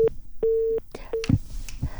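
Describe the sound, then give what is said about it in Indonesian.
A telephone busy tone sounds after a phone-line call drops: a steady mid-pitched tone in three pulses of uneven length, followed by a few brief clicks and bursts of noise. “Sepertinya terputus ke Bapak Nirwono. Saya coba hubungi kembali ya pendengar Pro 1.”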